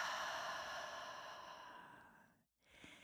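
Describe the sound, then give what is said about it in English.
Deep meditative breathing, quiet and airy: one long breath slowly fades out, then a brief silence, then another breath begins. “So let's begin by inhaling deeply through the nose and exhaling fully out through the mouth.”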